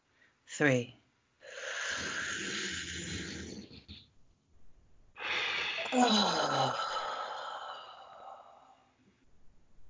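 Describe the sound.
A deep breath in and out during a guided breathing exercise: a brief voiced sound, then a long airy inhale, a pause, and a long, loud exhale that carries a voiced tone before trailing away.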